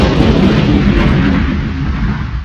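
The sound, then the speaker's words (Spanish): A spaceship explodes in a science-fiction scene: a loud, sustained, low rumbling blast that keeps roaring for the whole clip and fades only slightly toward the end. “Nave a punto de explotar.”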